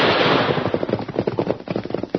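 Gunshots ring out in an ambush, fired from a ridge above a canyon. They start as a dense burst and break into many rapid, sharp cracks in quick succession, like automatic fire.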